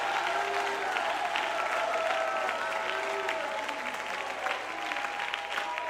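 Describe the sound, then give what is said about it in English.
A church audience claps their hands together during worship. The clapping is dense and steady for the whole stretch, with a loud crowd noise under it. “And somebody clap your hands and add your voice to it and shout unto God with a voice of”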